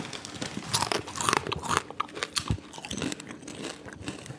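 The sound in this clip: Crunchy vegan savoy cabbage chips being bitten and chewed, with many sharp, irregular crackling crunches following one another densely and fairly loudly, without talk.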